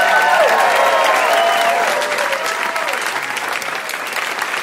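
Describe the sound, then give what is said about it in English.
A live audience applauds the guests at the end of a show, a loud sustained wash of clapping that eases slightly toward the close. “And can we get one more hand here for all our guests,”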